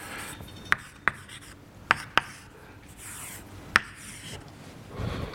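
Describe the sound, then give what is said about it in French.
An equation being written by hand during a lecture on chemical reactions: a faint scratchy rubbing of the writing stroke, broken by five sharp, crisp taps spaced irregularly. “alors je vais l'écrire comme ça, euh, je, je peux l'écrire complètement d'ailleurs au début.”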